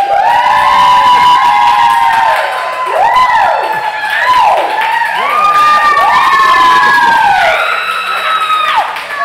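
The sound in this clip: Crowd cheering, a loud, sustained mass of voices with high whoops and shouts rising and falling over roughly nine seconds.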